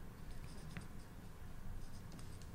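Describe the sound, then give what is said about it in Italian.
Notes are written by hand with a pen on paper, making faint, soft scratching strokes over a quiet background. “Allora, interagire e usare, me la scrivo qua.”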